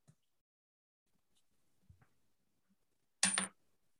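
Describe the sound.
A quarter is flipped and lands with a short, bright metallic clatter near the end, after a few faint ticks in near silence.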